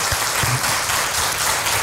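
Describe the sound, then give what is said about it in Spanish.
Audience applause honoring a doctor after a talk: dense, steady clapping from a crowd that stays loud and even from start to finish, with no voices. “Te damos un aplauso con todo cariño al doctor.”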